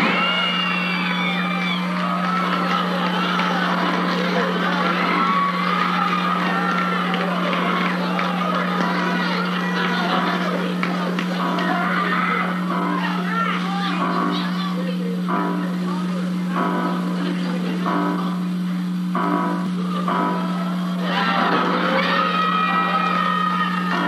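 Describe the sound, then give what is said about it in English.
A 1970s cinema audience reacts to a screening of Halloween with constant shouts, whoops, yells and chatter, a loud unbroken crowd din layered over a steady low electrical hum. “And recently there was a viral audio recording of an audience seeing Halloween in the theater together in the 70s.”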